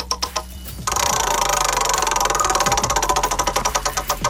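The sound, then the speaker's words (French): A prize wheel is spun, setting off a rapid, rattling run of ticks after a few separate clicks. The clatter gradually slows until the ticks come as distinct, evenly spaced clicks near the end. “Attention, on retourne la roue, c'est parti.”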